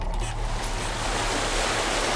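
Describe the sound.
Rolling ocean waves heard from a boat: a dense, unbroken wash of rushing water noise over a low rumble, loud and steady from start to finish, without any talk.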